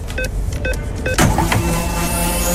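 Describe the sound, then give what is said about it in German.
A radio station sound effect marks the loading of a 500-euro fuel card. Three short electronic beeps are followed by a loud burst and a sustained mechanical whirring sweep. “Achtet gerne drauf, sobald wir die Karte mitten im Programm aufladen. Das klingt so.”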